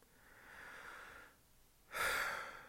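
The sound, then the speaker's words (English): A breath in two breathy phases: a soft, steady rush that fades into a brief lull, then a louder, sharper surge of air that holds and tapers off. No voices accompany it. “that breath right there comes to me when I do the morning pages”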